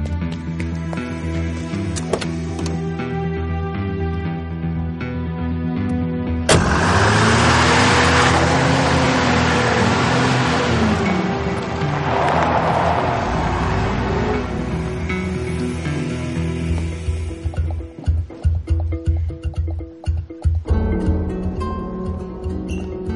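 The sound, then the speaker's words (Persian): A yellow jeep accelerates hard and drives away, its engine swelling into a loud, sustained roar mixed with rushing noise. Toward the end, scattered clattering knocks cut through the sound. “با اون جیب زرده برو، فقط تا میتونی گاز بزن”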